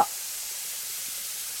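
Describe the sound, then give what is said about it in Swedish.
Steady sizzling as cooking cream is poured into a hot pan with butter, a soft, even hiss that begins right away and continues unbroken to the end. “Så jag häller i den matlagningsgrädden.”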